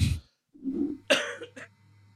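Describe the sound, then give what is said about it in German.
A coughing fit brought on by laughter: a few harsh, uneven coughs in quick succession, with short gaps between bursts and no talk. “Jedes Mal, wenn ich, wenn ich äh, hier anfange zu lachen, breche ich in einen Hustenanfall aus.”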